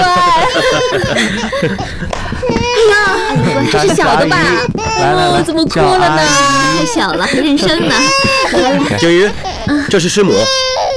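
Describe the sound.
A very young child cries, shy and upset at meeting strangers, wailing in wavering, high-pitched sobs throughout, with adults talking over it.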